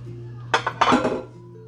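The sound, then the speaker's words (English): A spatula clatters and scrapes against a bowl while mixing in chocolate: one short knock, then a longer burst of clinking scrapes, over a steady low hum. “Spatula to mix in the rest of this chocolate.”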